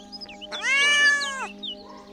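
A cat gives one long, loud, drawn-out meow, with faint high chirps just before and after, over a steady low hum.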